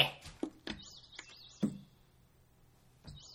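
Faint bird chirping: a few short, quick warbling chirps in small bursts, mixed with soft thumps and taps against a quiet background.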